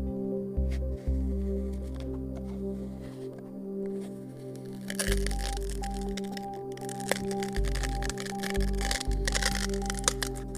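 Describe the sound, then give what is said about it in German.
A Nutella jar lid being opened for a close-up ASMR recording: crackling, scraping bursts over a heavy low hum, denser in the second half, with a few sharp clicks. “Der Deckel ist geöffnet.”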